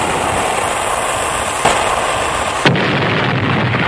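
A cannon firing at a ship: two sharp booming bursts about a second apart over a continuous noisy rumble.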